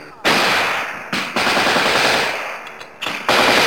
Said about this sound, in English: That's our 50 caliber atop the tank, opening fire.